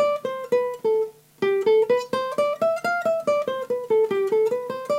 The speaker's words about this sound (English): now I play in the 8th, the 10th, and the 12th fret on each string, on the B and E string.